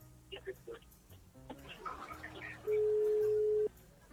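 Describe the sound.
A single telephone ringback tone sounds while a call is being placed: one steady, loud, mid-pitched burst lasting about a second, following people talking.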